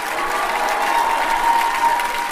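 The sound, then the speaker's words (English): A concert audience applauds and cheers at the interval, with dense, even clapping and crowd noise holding at a steady moderate level throughout. “Big cheer for the genuine man!”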